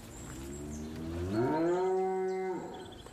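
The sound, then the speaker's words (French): A cow moos once as the herd heads out to the fields in the morning. The long, low call rises in pitch and then holds steady for about a second before cutting off, heard alone without speech. “Les vaches s'en vont dans les champs.”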